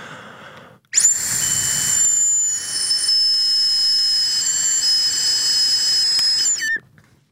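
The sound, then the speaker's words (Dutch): A digital breathalyzer emits a continuous high electronic tone while calculating alcohol level. The tone holds for nearly six seconds with slight pitch wavers and a brief dip in level partway through, then cuts off abruptly. “En we hebben ook een alcoholmeter. Wat, eh, wat betekent dat in promillage? We zullen eens kijken.”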